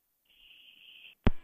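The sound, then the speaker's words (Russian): A single steady, high electronic beep from a phone line as a live phone-in call drops, holding for under a second and ending in one sharp click. “Какой-то странный день сегодня. Странный. Все звонки да, срываются.”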